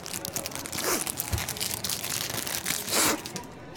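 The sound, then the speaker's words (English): Crinkly pack being ripped open: a faint, continuous crackling tear with crinkling and crunching texture running throughout. “I want that sweet crinkle crack. Can't beat the ripping.”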